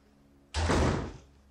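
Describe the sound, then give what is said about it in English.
A gate being shut, a single heavy slam that bursts out loudly and then fades over about half a second. “I said go and lock that gate. Now!”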